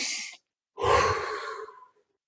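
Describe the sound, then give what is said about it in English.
Forceful breathing during a fast breathing exercise for stress, drawn in through the nose and out through the mouth. A brief breath is cut off at the start, then after a pause comes one longer, airy breath lasting about a second, with no talking. “in through my nose, out through my mouth, 30, just super fast.”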